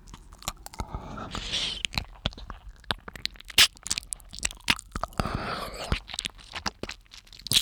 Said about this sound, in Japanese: ほら、チュパチュパ、耳を舐める音も聞こえるでしょ。